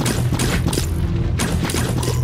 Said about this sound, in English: She's shooting zombies at the moment.